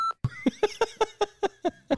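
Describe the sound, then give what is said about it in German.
A brief, steady censor bleep tone opens, then a voice imitates the bleep with nine rhythmic, pitched syllables in quick succession. “Ja, das piep ich. Ihr werdet nie wissen, was ich gesagt habe. Piep, piep, piep.”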